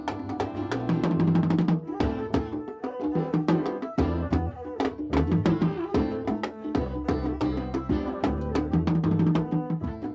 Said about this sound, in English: They're playing a mix of modern and traditional Ethiopian instruments. There's a bass and flute, an assortment of drums, also a masenko, a kind of violin that has just one string, and a krar, a handheld wooden lyre.